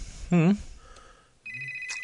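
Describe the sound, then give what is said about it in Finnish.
A studio telephone rings with a steady, high electronic tone that starts partway through and holds to the end. A brief voiced sound comes before it. “Nyt meillä joku soittaa. Kerrankin syypää en ole minä. Enkä minä. Vaan täällä se on studiopuhelin.”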